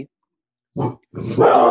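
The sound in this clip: Dogs barking: one short, gruff bark, a brief pause, then a longer, rougher burst of barking that grows louder toward the end.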